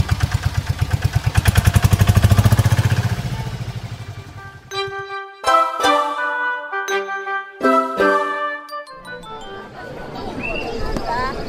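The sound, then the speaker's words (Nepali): A tempo auto-rickshaw engine starts up with a rapid, loud throbbing rattle for the first few seconds, then gives way to jingling, clattering tones and talk. “ल मैले tempo start गरेँ है त।”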